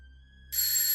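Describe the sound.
Loud, bright alarm clock ringing bursts in about halfway through, a dense continuous metallic jangle that holds steady to the end after a faint, low steady hum.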